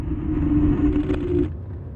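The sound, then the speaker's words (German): Low road and engine rumble inside a moving car travelling to Siegburg, a steady droning hum with a sustained tonal whine that cuts out near the end while the rumble carries on. “jetzt sitzen wir im Auto und fahren gemeinsam nach Siegburg.”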